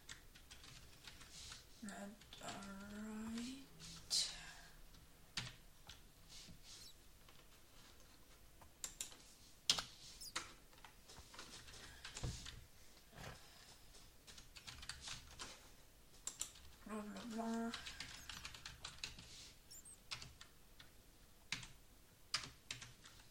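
Typing on a computer keyboard to enter text while playing Minecraft: many faint, quick, irregular key clicks with a few sharper, louder taps scattered across the stretch.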